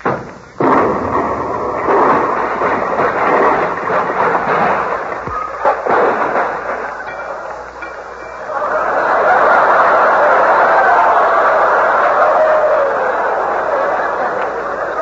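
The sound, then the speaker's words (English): A miniature atom bomb explodes after being dropped on the floor: a sudden loud blast opens into a long, dense, crackling roar that dips and then swells again to a broad, sustained rush. “Nothing special, just an atom bomb. Colonna, an atom bomb? Nothing to worry about, Hope. It's only a miniature. It won't explode. Here, I'll drop it on the floor and show you.”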